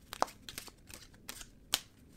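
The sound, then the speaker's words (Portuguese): Tarot cards are shuffled in a few faint, irregular bursts of papery riffling and soft slaps, with no other sound. “Vamos embaralhar as cartas.”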